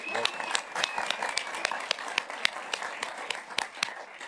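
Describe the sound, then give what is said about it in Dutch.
A fan club applauds in a hall with crisp, fairly regular claps forming a steady rhythmic beat, and a thin whistle-like tone rises above it early on. “Fanclub meegenomen hoor ik in de zaal.”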